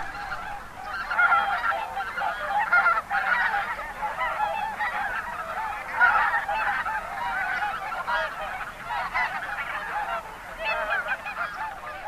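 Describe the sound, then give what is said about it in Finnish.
Hundreds of taiga and tundra bean geese honk on an autumn field during migration, their many overlapping nasal calls forming a steady, moderately loud chorus that rises and dips throughout. “Syyslokakuun vaihteessa pellolle on saapunut Venäjän taikalta ja tundralta satoja metsä- ja tundrahameja.”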